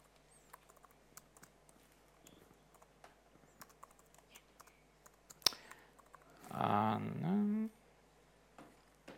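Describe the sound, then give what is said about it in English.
Faint, sparse key clicks come from a computer keyboard as someone types a host name during a Docker setup. Near the end, a short voiced sound rises briefly over the tapping. “I need to type the right name. I've prepared that.”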